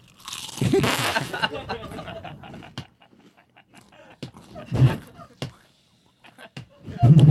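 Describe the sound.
A man crunches loudly on chips, with a heavy run of crisp bites at the start, then sparser snaps and a few more crunching bursts among quiet breathy sounds.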